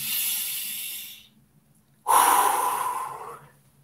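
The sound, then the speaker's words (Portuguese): A deep breath: a long, airy inhale, a short silent pause, then a louder, forceful exhale that slowly trails off. “Respira fundo.”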